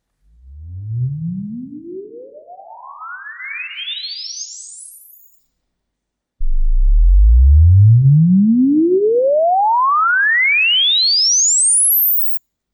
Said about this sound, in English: as we listen twice to a frequency sweep over the full audio or audible range, pay attention to the screen behind me as the noise spectrum changes from low to high frequencies